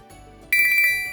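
A phone's message notification tone rings out suddenly partway through after near silence: a bright, high chime with a few quick pulsing notes, then a sustained ring that slowly fades.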